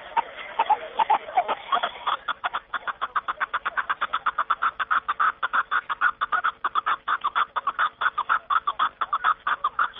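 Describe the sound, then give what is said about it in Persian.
A partridge calling in the mountains of the Zarafshan valley: a long series of many rapid, evenly spaced clucking notes, irregular at first and then settling into a steady, insistent rhythm. “جناب شریفوف همچنین افزود که کپک در این صدای خیلی آرام دارد و زیب کوهساران است.”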